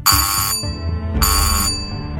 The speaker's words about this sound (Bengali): ডোরবেলটা বেজে উঠল